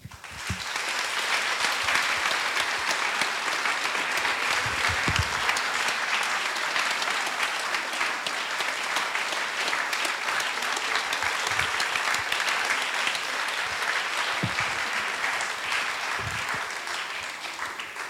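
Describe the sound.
An audience applauds to welcome a musician guest with long, steady, dense clapping that holds an even level and eases off slightly at the very end.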